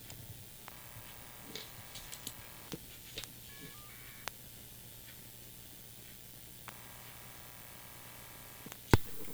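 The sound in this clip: A telephone call is placed with faint phone tones: two long, steady tone bursts separated by a pause, scattered soft clicks and ticks, and a sharp loud click at the end.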